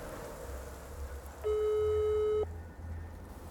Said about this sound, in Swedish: søkte jeg derfor opp nummeret hennes for å ringe og si at jeg var på vei